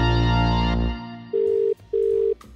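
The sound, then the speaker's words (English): A phone call rings on the line after a number is dialled: two steady, even ringing-tone bursts of equal length, separated by a short gap, follow a louder, fuller opening sound. “let's type this number in and see what Aaron has to say”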